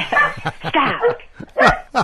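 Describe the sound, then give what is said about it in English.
A small dog barks in several sharp, high yaps that come in uneven bursts, loud and with no talk over them. “See, the dog wants to be on the air as well, wants to get into the act.”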